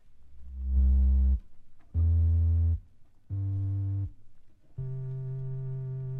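Four separate low, sustained bass notes are played on the pedal keyboard of a Boston Emerald electronic organ, each held for about a second. The first two are louder and the last two softer.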